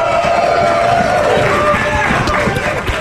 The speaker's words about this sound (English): I got to give credit to this audience. It is breezy this morning here in Las Vegas, and they've been out here since around 5:30 this morning.